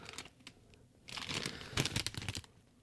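Crinkling of a plastic packet of plantain chips, a package already cut open by customs, as it is handled: irregular rustles and crackles, quieter at first and then louder and denser bursts in the second half, with no talking.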